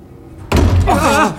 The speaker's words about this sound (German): Oh! Oh, welche Tür war das?